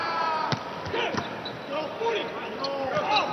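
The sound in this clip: A basketball bounces, giving a few sharp, hollow thuds at uneven intervals, with people talking over the bouncing throughout.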